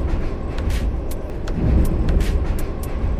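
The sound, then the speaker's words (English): Riding the Green Line metro train in Washington, D.C.: a steady low rumble throughout, with several brief airy hissing bursts rising over it. “As I rode the Green Line here in Washington, D.C. to meet her, I made these audio notes to remind me what I wanted to ask.”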